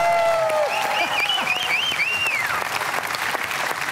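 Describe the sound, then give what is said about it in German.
Audience applause with people asked to stand at a fundraising gathering: dense, steady clapping from a crowd, with a wavering high cheer over the first half. “Bitte, einmal noch aufstehen. Ja, Applaus!”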